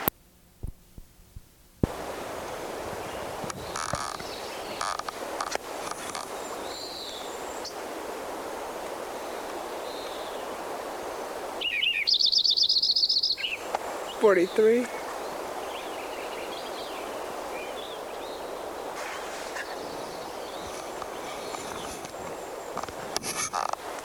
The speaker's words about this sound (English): Lincoln Sparrow number 4 continued from last tape.